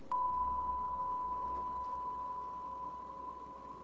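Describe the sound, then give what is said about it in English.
A steady pure test tone for a hearing experiment sounds at one fixed mid-high pitch, holding smooth and unbroken and fading only slightly over several seconds. “Here's a tone.”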